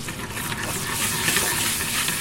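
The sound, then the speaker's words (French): Butter foams in a frying pan with a constant hissing sizzle and fine crackle. It stays even in level throughout, alone and without talk. “Là, le beurre est en train de mousser. Alors il doit pas brûler, bien sûr.”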